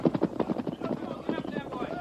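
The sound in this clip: Horses galloping fast in a radio western, a quick steady drumming of hoofbeats with tonal sound mixed underneath throughout.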